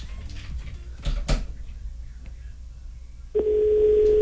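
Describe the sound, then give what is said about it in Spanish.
A telephone tone sounds while a number is being dialed. After a few faint knocks and rustles, a steady mid-pitched tone starts abruptly near the end and holds at an even, fairly loud level. “¡Marcando!”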